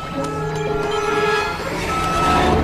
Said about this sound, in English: a lorry backs up close to her door